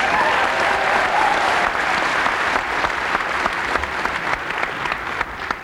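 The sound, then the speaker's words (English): An audience applauds a musician introduced on stage with a string band featuring banjo and bass fiddle. The clapping is full and sustained, with sharper individual claps standing out near the end. “Let's make him welcome, what he said. Give him a hand.”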